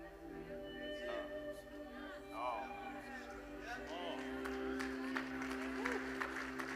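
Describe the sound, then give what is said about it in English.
A few audience members clapping, sparse and faint scattered claps mixed with voices and a low sustained tone underneath. “Oh, only a few of you clap, but I don't care.”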